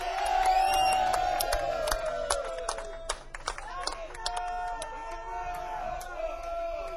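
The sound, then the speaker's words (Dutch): Crowd cheering, whooping and applauding for a band, a dense, steady roar of clapping and shouts that stays loud throughout, with a few sharper claps and calls standing out near the middle. “kei en keihard applaus voor deze geweldige band”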